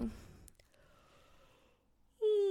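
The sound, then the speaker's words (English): A person yawns: a long, soft, breathy stretch of air leads into a sudden loud voiced tone at the end that slides slightly downward in pitch. “sorry about that. You think, given how much I've slept, I wouldn't need to yawn.”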